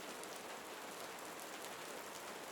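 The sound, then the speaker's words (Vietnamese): Heavy rain falling as a dense, unbroken hiss of countless drops, even and constant throughout at a soft overall level, with no voices. “Cơn mưa dần nặng hạt.”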